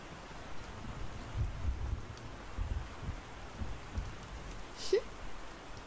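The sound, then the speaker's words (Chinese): Rain falls as a soft, continuous hiss with low, rumbling swells. It stays quiet and even throughout. “看，我就说吧，下雨了，快过来吧。”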